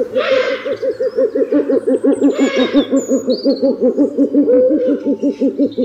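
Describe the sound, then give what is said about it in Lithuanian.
A large owl, among the biggest owls of the region at 42–49 cm and 2–2.5 kg, hoots in a rapid, steady series of many low, evenly spaced notes that continue throughout. “Tai didžiausios mūsų krašte gyvenančios pelėdos.”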